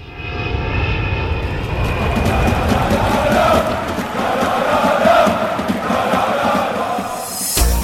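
A fixed-wing airplane flies past with a loud, broad engine roar that swells and holds steady for several seconds, rumbling continuously and briefly surging again at the very end, with no voices.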